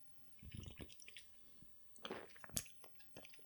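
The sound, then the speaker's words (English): Sipping a caffeinated drink, heard as faint wet slurps and swallowing sounds in a few short bursts, with a sharper wet click near the end and quiet pauses between. “Excuse me while I refresh myself with even more caffeine, which should bring the levels of caffeine floating in my bloodstream to an almost toxic level.”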